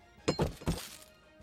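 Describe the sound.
Dice rolled for an attack in a two-person Dungeons & Dragons game: a few hard, clattering knocks in quick succession on a surface, then a faint trailing rattle.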